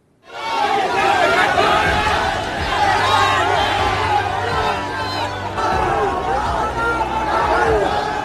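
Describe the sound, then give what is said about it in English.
A large crowd of police constable exam aspirants cheering and shouting over the re-examination announcement. The dense, loud mass of voices rises abruptly and keeps going without a break, with whoops and excited chatter. “Thousands of aspirants cheered as the government notified that there would be a re-examination for the UP police constable test.”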